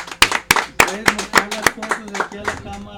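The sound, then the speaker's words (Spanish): Hand clapping for a guest at a talk on Mexican rock history: loud, sharp claps in a steady rhythm that thin out and soften toward the end, with voices underneath. “otro aplauso para Pedro”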